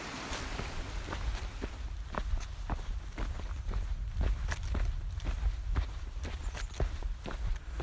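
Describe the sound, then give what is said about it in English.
Footsteps walk over muddy ground at a camp in a steady rhythm of many soft steps over a low background rumble. “Now I'm walking currently, but that's because I'm trying to get to this little stream just down here”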